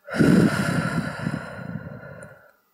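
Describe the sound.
One long, deep human breath: a loud, airy, hoarse rush that starts strongly and fades off gradually, heard alone without talk.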